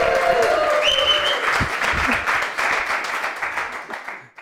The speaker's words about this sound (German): das gibt doch diese Applausometer, ne? also der, das war, war, war bis zum Anschlag.